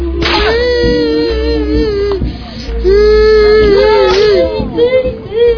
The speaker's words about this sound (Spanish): Los guaguas gritaban, lloraban viendo el tormento de aquellos inocentes.